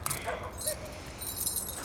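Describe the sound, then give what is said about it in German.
Keys jingle as a small padlock key is picked up from the snow. A few light metallic clinks and rattles are heard, fairly faint, spread through the moment. “Ein Schlüssel. Passt der vielleicht zur Hintertür? Nein, das sieht nach einem Schlüssel von einem Vorhängeschloss aus.”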